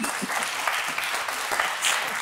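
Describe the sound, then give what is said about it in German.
Audience applause in which two men clap frenetically while the rest clap politely, producing a steady, fairly loud patter of many hands with no voices. “Es gab zwei Herren, die hier gerade frenetisch geklatscht haben. Der Rest war eher höflich.”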